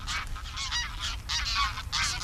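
A flock of geese honks as the birds take off from a muddy polder field. Many overlapping nasal honks run continuously and fairly faintly throughout.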